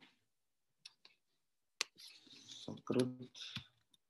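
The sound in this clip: A few sparse keyboard clicks, typing a search phrase, sound in near silence before a voice begins talking over the last part.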